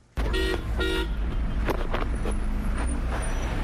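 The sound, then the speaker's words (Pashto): Busy central Kabul street traffic with car horns: two short, bright horn toots sound early, then a dense, continuous roar of engines and road noise carries on loudly underneath. “دا د کابل ښار په مرکزی برخه کې د افغانانو سیمه ده. په دې سیمه کې د خلکو او موټرو ګڼه ګوڼه خورا زیاته ده.”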